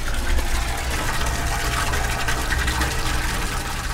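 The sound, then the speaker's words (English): Maple sap pours in a heavy, steady rush from the woods' collection lines into a large cement tank lined with food-safe plastic at a sugar house. The loud, constant gushing flow continues without a break, and no voices are heard. “That is the sound of sap flowing. A lot of it.”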